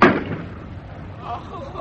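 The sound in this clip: A ship's cannon fires at sea while the vessel rolls, a single loud blast at the start that decays into a low, rumbling wash of sound.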